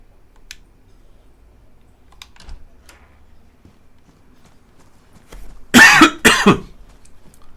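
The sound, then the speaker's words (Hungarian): Two loud coughs from a person follow each other quickly after several seconds of near silence with a few faint clicks. “köhögök én a karakter helyett”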